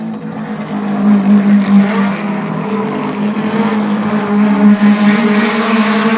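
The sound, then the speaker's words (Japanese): Racing car engines in a machine race: a loud, steady buzzing drone that holds level throughout, swelling slightly now and then. “マシンレース。”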